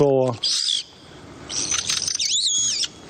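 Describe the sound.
Pet parrots in a home calling: a few loud, shrill squawks and whistles, opening with a harsh, buzzy call, then bright piercing cries and a warbling, wavering whistle, alone with no talk.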